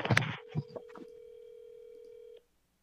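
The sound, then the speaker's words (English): Telephone ringback tone on an outgoing call, a single steady mid-pitched tone lasting about two seconds that stops abruptly, preceded by a few short clicks and knocks. “We're calling Jacob and seeing if he'll answer.”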